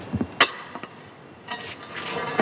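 A metal manhole cover is pushed with a long tool across the cobblestones of a street in central Rome in the early morning: a few sharp knocks and clanks, then a longer stretch of rough scraping.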